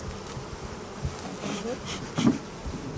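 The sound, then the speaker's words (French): Honeybees buzz around a hive being opened, a continuous, wavering hum with a few brief louder swells as individual insects pass close. “Mais c'est à la ruche de gauche, pas à la ruche de droite. Là, ça bouge pas beaucoup.”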